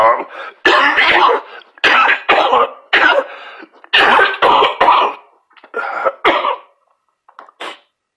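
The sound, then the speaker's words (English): A harsh coughing fit: many loud, rough coughs in quick clusters separated by short pauses, growing sparser and fainter toward the end. “excuse me, I know I got my little cough, but I ain't got corona now.”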